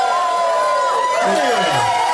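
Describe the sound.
An audience cheers at a comedy stage show, a loud, steady roar of mixed shouting voices and cries from the crowd, with no single voice standing out as a main speaker.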